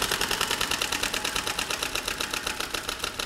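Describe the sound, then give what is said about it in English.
A prize wheel spins, its pointer ticking against the pegs in a long, even run of many sharp, rapid clicks at a quick, steady pace. “Let's spin the wheel.”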